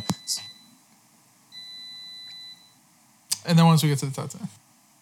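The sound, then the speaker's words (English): An air fryer beeps when its cooking is done, first with short high beeps and then with a longer steady tone, after which a person starts talking. “Sorry, this is the beeping. Did the beeping throw you off? I heard a beep. Yeah, I was hoping I wasn't gonna be talking when my air fryer was done”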